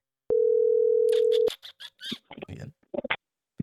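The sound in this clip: A telephone ringing tone while a call is placed: one steady, pure mid-pitched beep lasting just over a second, then brief voices talking.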